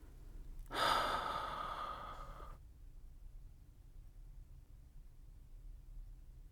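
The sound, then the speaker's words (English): A single deep breath, a soft airy rush lasting about two seconds, faint, followed by near stillness with no talk. “Now take a few deep breaths. Inhale through your nose and exhale through your mouth.”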